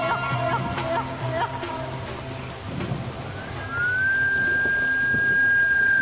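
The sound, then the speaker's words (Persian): A person whistles one long, steady high note that slides up slightly at the start and then holds to the end. A rushing, rain-like background noise runs underneath throughout. “چرا سوت میزدی؟ صدای سوت اذیتشان میکنه”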